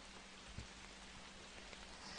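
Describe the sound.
Rain falls in a soft, continuous hiss of drops with a few faint scattered patters. It is quiet and steady throughout, with no voices.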